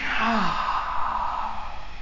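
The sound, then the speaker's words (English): A single soft, breathy exhale like a sigh during yoga breathing practice, with a brief voiced onset that trails off into airy breath noise, heard alone. “Breath out. Inhale. Exhale. Breath in. Breath out.”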